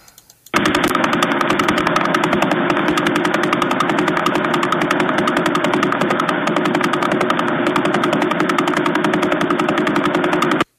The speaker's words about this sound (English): This means that it's spinning 11 times a second. Here is how the Jodrell Bank Observatory recorded the Vela pulsar.